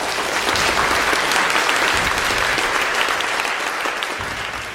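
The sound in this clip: A lecture audience gives a round of applause at the end of a psychology talk on meaning and mental health. The clapping is loud, dense and steady throughout, easing only slightly toward the close.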